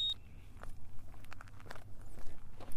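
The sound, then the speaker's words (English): Footsteps of a person setting off on a run, a quick string of soft, faint crunching steps with irregular spacing, alone without talk. “Let's turn this on. Ready, set, let's go for a run.”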